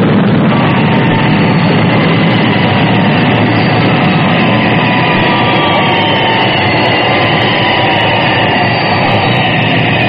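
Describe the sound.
A loud, continuous jet-engine roar comes from an aircraft coming in to land vertically without a runway, a dense and unbroken wall of sound that holds steady throughout with no voices.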